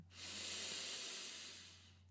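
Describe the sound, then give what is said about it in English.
A single long breath is heard as a soft, airy hiss during a breathing exercise of breathing in and blowing out. It swells and then slowly fades over a faint, steady low hum. “Breathe in, blow out. Breathe in,”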